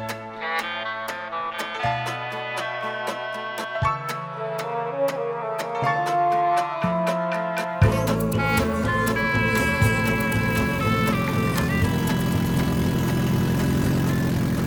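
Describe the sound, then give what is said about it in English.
Roar of a car running without a catalytic converter, its exhaust system faulty, heard alone as a loud, continuous, throaty engine drone with a pulsing texture that swells fuller and rougher partway through. “That is the lovely roar of a car without a catalytic converter.”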